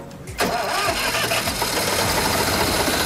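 A car engine cranks with the ignition key and catches after a brief quiet start, then keeps running loudly with a steady mid-pitched roar.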